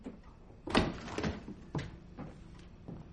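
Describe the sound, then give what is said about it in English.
A refrigerator door opens in a kitchen with a soft, faint thud and rattle, followed by a few quieter bumps and knocks. “Loretta enters, tosses her coat on a chair, then opens the refrigerator.”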